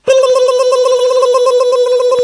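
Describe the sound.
Telephone ringback tone on an outgoing call to a photo shop: a loud, steady, buzzy electronic tone that starts abruptly and holds without a break.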